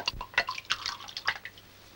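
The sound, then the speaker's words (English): Wine poured into a glass: a few short splashing drips and light glassy clinks, no voices. “May I have a little more wine? He pours her another glass.”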